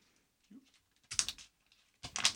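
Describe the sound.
A 5 banknote is folded in half again and again, giving two short, crisp papery crackles separated by a brief quiet gap, both faint and without talk.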